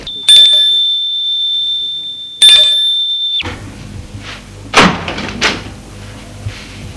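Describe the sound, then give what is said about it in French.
A doorbell rings twice at a second-floor apartment door off a narrow stone staircase, a high, steady electric tone, one long ring then a shorter one, followed by a few muffled clunks. “monte jusqu'au deuxième étage et va sonner à la porte.”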